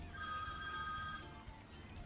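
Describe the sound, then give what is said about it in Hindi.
Mobile phone ringing with an incoming call: a steady, bright electronic ringtone holds for about a second over a low rumble, then fades out. “और लो तुम्हारे दोस्तों का phone मेरे mobile पर आ रहा”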